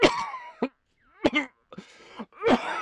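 A person coughs uncontrollably after choking on pizza: several harsh, throaty bursts separated by short pauses, some strained and moan-like, with no talk.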